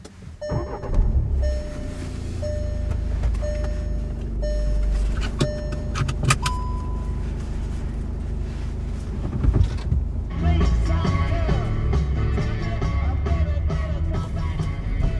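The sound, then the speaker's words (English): A car driving on a road trip from Ajax, Ontario, toward Arnprior: a steady low engine and road rumble throughout, with a few sharp clicks and rattles partway through and faint tonal hums above it. “driving to get Diana Trepkov out here in Ajax, Ontario, on the way to Arnprior to meet the McNaughton family”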